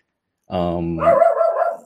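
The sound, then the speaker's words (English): A dog gives a drawn-out bark with a whining, yelping edge. The bark is loud and stands alone for about a second. “My dog is annoying me there.”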